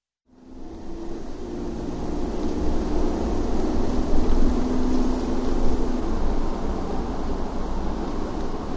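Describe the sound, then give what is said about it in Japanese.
A car engine and road roar hold steady and loud from start to finish as the driver presses the accelerator, with a faint hum running through the middle and no voices. “やれやれと思いつつ私はアクセルを踏み込んだ”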